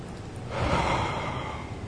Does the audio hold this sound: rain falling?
no